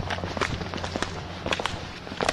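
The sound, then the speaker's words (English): Footsteps walk along the approach to a wildlife orphanage of the Kenya Wildlife Service in Nairobi, among tall trees. Many quick, irregular soft steps sound over a steady low hum. “I'm now walking to the orphanage”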